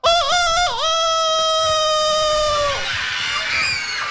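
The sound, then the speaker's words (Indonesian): A chicken call, a loud and sustained harmonic cry with two quick dips at the start. It holds steady before falling away, followed by fainter, higher calls. “Kalian kok tahu suara ayam?”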